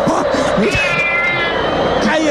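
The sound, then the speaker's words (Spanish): A voice imitates a cat's meow, a wavering, drawn-out mewing cry over steady, loud crowd noise. “Ahí está el gato. Puta, el gato que está.”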